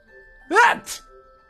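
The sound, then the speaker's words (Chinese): A loud sneeze bursts out in two quick parts, a sharp voiced blast followed by a shorter tail, over a faint steady background tone. “突然扬起脸打了个喷嚏，这喷嚏声音实在是响亮”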